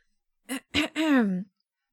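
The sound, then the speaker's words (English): A man clears his throat in three short voiced bursts; the last is longest and its tone falls. The sound is alone against silence. “He clears his throat, then starts again.”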